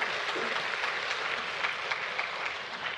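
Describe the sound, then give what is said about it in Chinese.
Applause from a church audience thanking volunteer workers and host families, a dense, steady crackle of many hands clapping at even loudness for about three seconds, with no talk over it. “所以我现在要邀请我们弟兄姐妹，为我们的所有的同工啊， 所有开放家庭的，为他们鼓掌感恩好不好？”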